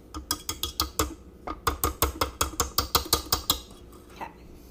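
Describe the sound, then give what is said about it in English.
A whisk attachment is worked off a stand mixer: a rapid run of metallic clicks and rattles, a brief pause, a second longer run, then one last faint clink. “take my whisk off of my mixer.”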